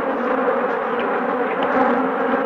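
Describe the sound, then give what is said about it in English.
Swarming honeybees buzz around a beekeeper's veil in a dense, continuous drone, loud and steady throughout with no pauses. “For 9,000 years, honeybees like these have served man willingly.”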